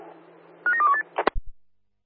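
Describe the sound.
Telephone dialing tones: a few quick beeps at shifting pitches over a faint steady hum, followed by several sharp clicks before the sound cuts to silence.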